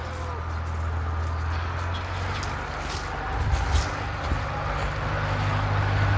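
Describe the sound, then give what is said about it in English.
Motor vehicle with an engine approaching: a steady, low engine rumble that swells slightly partway through and holds to the end. “Here comes a vehicle with an engine.”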